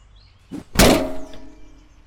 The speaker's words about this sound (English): Then chop it with that axe over there.